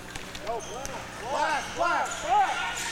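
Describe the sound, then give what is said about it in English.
A basketball is dribbled during a game, several hard rhythmic bounces on the court while a commentator talks over them. “And Tawatari too wide with the dribble.”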